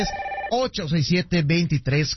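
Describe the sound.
A telephone rings with an incoming call, a steady tonal ring lasting about half a second, then voices take over and carry on talking.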